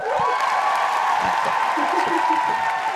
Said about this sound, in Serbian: Virtualni aplauz.